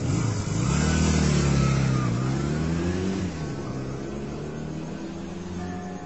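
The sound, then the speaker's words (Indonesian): A motorcycle engine pulls away on a cold night, a steady mid-pitched drone with rich harmonics that shift in pitch, louder at first and then dropping to a quieter level about halfway through. “Aku pakai jaketku dan langsung mengendarai motorku.”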